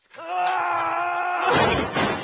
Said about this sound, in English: Watch it, Trent, you knocked over my bongos!